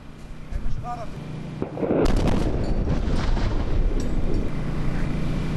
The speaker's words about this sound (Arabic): الآن غارة ثانية على بلدة المنصوري، هي الغارة الثانية في غضون أقل من دقيقة على هذه البلدة التي جرى تهديدها من جانب القوات الإسرائيلية في جنوب لبنان